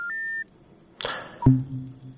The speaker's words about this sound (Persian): متاسفانه که تماس این شنونده ما قطع شد.